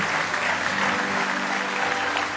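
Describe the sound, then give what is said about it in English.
An audience clapping hands in praise during a worship service makes dense, sustained applause that stays evenly loud from start to finish. “Give the Lord a good hand clap of praise.”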